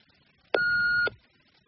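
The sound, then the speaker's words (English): A single answering-machine beep: one steady, mid-high electronic tone of about half a second, alone against near-silence. “Thanks for calling. Please speak after the beep and I'll get back to you.”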